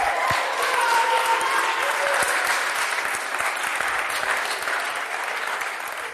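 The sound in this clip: An audience at St. Peter's applauds to welcome a team captain. Steady, dense clapping holds for about six seconds and eases slightly toward the end.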